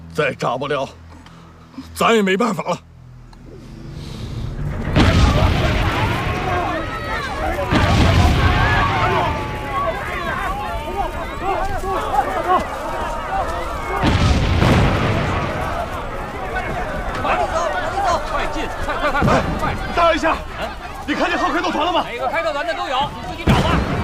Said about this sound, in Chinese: 咱手榴弹都扔进去了。